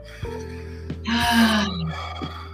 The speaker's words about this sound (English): Take a breath.